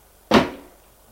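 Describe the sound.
A door swinging open: one abrupt, fairly loud scrape-like burst that fades over roughly a quarter second, then near silence.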